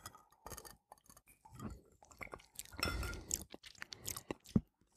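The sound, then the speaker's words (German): Someone sips a rosé-colored gin and wine cocktail with lemon: small glassy clinks and many soft slurping and swallowing sounds, at low level, with no speech. “Ja, und dann trinken wir doch mal.”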